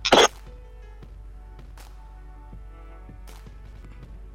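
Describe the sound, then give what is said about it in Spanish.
One brief, harsh cough bursts out at the very start in two quick pulses, then only quiet background sounds follow. “un segundito que voy a toser”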